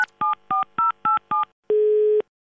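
Telephone keypad dialing: a quick, evenly spaced run of short dual-tone beeps, then one longer, lower steady tone, each clean and loud against silence.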